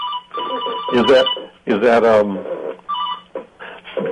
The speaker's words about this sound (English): I'm sorry that phone rang